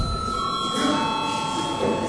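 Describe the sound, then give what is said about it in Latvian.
An electric bell rings to call members to a vote in a parliamentary session, giving a steady, sustained ringing tone that continues unbroken throughout. “Lūdzu, vēlreiz zvanu.”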